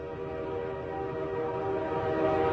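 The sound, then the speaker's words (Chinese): A train arrives sounding its horn: a steady, sustained multi-tone blast held throughout over a low rolling rumble, with no voices. “火车来了，请上车”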